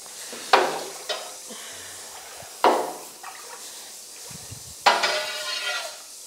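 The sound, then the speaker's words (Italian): Stirring rennet into milk for cheesemaking: a few splashy, clattering bursts of liquid and utensil, separated by quieter gaps, with no voices. “Per aggiungere caglio. E vado a miscelarlo tutto.”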